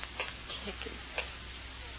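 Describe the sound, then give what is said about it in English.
A clock ticks quietly and steadily, its small regular clicks sitting over a constant low hiss in a muffled, band-limited recording. “Ticking. Yeah, I know. I've been sitting here listening to it. I can't stand it anymore. I'll stop it.”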